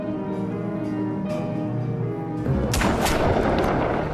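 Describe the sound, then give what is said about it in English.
A pistol gunshot fired at a canal side: one loud, sharp blast partway through cuts into a steady tonal background, followed by a dense, noisy rumble that holds to the end. “Harry's aim is good enough, however, to put a bullet right through Ray's body just below the heart.”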